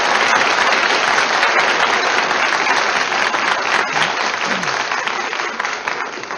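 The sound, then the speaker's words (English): Audience ovation for pianist Joe Fingers Carr at the Ford Show: dense, loud, sustained applause with no break, easing slightly toward the end. “And as you can hear, Joe Fingers Carr received a tremendous ovation.”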